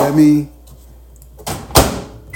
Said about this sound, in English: let me microwave some quick tea. Let me heat up tea. Maybe that'll help with my voice.